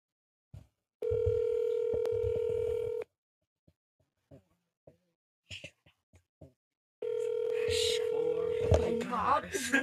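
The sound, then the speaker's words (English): A telephone dial tone hums steadily for about two seconds, then short touch-tone beeps sound while a friend's number is dialed. A steady tone returns afterward, with people talking over it. “We are going to call Avery. All right. So this is our friend to dial up today.”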